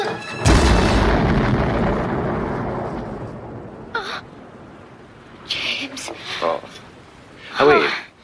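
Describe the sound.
A bomb explosion in a James Bond film scene: one loud, deep boom that rumbles and slowly fades over several seconds, followed by brief voices and a gasp.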